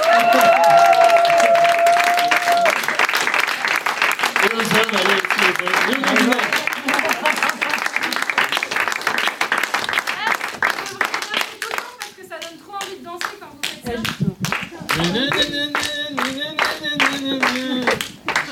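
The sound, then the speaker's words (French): Applause from an audience at an open-stage evening, honouring the women performers: dense, steady clapping that fills the whole stretch, with voices and tonal sounds joining toward the end. “Un applaudissement aux femmes. Bravo.”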